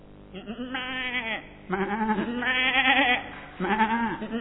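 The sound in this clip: A human voice imitating goat bleating: a few wavering, nasal bleats with short gaps between them, each a trembling, vibrato-like cry of moderate loudness.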